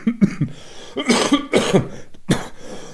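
A person coughs in a fit of several harsh, rough bursts mixed with throat clearing, loud and irregular, with no talk over them.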